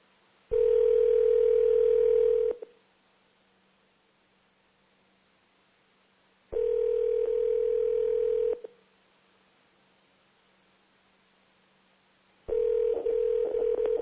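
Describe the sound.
Telephone line tone while a call is being placed: three long, steady single-pitch tone bursts of about two seconds each, separated by long quiet gaps over faint hiss and low hum, with no voices.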